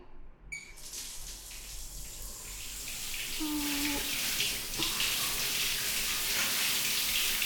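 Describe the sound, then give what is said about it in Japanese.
Hot water poured over someone in a bath: a soft splash grows into a steady, full rushing stream that continues evenly to the end, with no talk. “んじゃ、お湯かけるね。”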